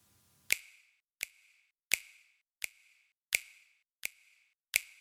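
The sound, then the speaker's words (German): Seven finger snaps processed with a compressor, evenly spaced and about equally loud. Each is a sharp, bright crack followed by a short, slightly sustained tail before the next. “Plötzlich klingt unser durchschnipsender Schnipser nicht mehr undynamisch vor sich hin,”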